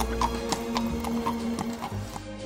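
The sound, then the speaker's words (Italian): Horse hooves clip-clop as Cinderella's horse-drawn carriage drives away through the streets of central Viareggio, a steady, even rhythm of many hoofbeats over a low sustained tone. “ho visto la carrozza di Cenerentola che si allontanava”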